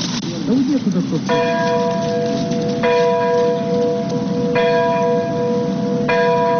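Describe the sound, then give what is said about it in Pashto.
A church bell tolls four times at an even pace over a steady hiss, rung in Ukraine early in the morning to mark the anniversary of the Chernobyl nuclear disaster. “د پیښې د کلیزې په یاد په اوکراین کې سهار وختي زنګونه ووهل شول.”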